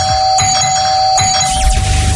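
A doorbell rings at a house door during a prize-giveaway visit: clear, sustained chime tones with a couple of sharp strikes. The ringing carries steadily over low rumbling noise that thickens toward the end.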